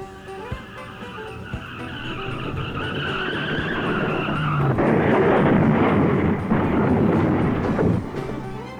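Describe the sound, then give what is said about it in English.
Car tires squeal in a long skid during a crash, a high screeching whine over rumbling engine noise that swells into a broad, harsh roar in the second half, with no talking. “Wow, what a mess. Look at this crash. It's horrible.”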